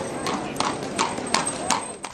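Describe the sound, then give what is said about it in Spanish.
A horse pulling a carriage clip-clops along, several evenly spaced hoof strikes ringing over a steady, noisy rumble. “Su chofer, que esperaba afuera, abrió la puerta del carruaje y emprendió el camino a casa.”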